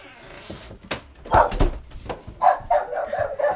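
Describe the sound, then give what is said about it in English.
A dog barking: a few short, sharp barks spaced unevenly, with the later ones louder and closer together. “Pardon the dog”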